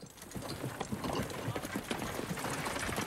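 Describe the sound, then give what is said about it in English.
Two horses pulling a carriage across a sun-scorched Kenyan savannah produce a continuous stream of hoof clops mixed with rattling and rumbling, dense and unbroken throughout. “A carriage is being pulled along by two horses.”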